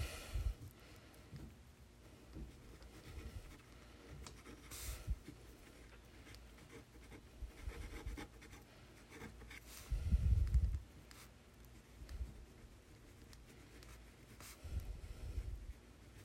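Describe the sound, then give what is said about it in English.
Pen scratching on paper as something is written down by hand, soft intermittent strokes with brief pauses and a few louder bumps, quiet throughout. “Actually, I'm going to write that down too. Give me 1 second.”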